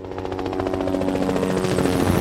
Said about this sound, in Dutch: Lifeliner 1 stijgt op vanaf het VU Medisch Centrum in Amsterdam. De traumahelikopter reageert op een alarm